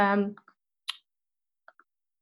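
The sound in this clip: Computer mouse clicks during desktop design work: a brief voice at the start, then a few sharp, dry clicks spaced apart in near silence.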